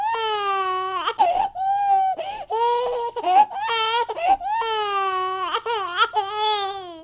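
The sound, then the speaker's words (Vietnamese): A small child of about three crying loudly in long, high, wailing sobs broken by short catches of breath, sustained and intense throughout. “Chớp mắt sau, nhóc con miếu máu, ôm chân Vệ Liễm khóc lớn.”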